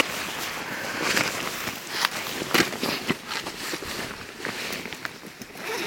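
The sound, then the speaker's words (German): Clothing rustles and crackles as it is pulled off on a mountain hike to reach a water bottle in an inside pocket; continuous scratchy rustling with a few sharper crackles, no voices. “Kann ich mir gerade mal die Flasche Wasser rausholen? Mit dir? Ja. Jetzt muss ich mir gerade mal sagen, wo die... Ich ziehe gerade schnell aus. Die ist auf der Innenseite. Kommt man nicht dran.”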